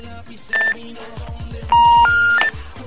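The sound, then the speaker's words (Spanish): Keypad tones sound as a telephone number is dialed: a few short, bright two-pitch beeps, separated by a rapid run of low clicks. “ya estamos marcando ese número. A ver si hay suerte.”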